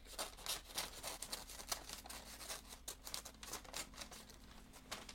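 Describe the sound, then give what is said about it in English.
Christmas wrapping paper being cut with scissors and handled: faint, crisp snips and papery crinkles in quick irregular bursts, with no talking. “it's really just wrapping paper, so I'm sure that they won't mind. It's not a big deal, man. Okay, so let's do a quick cut. I'm trying not to tear it.”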